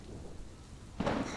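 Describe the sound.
Heavy pouring rain, a dense broad hiss with a low rumble underneath that swells louder toward the end, with no voices.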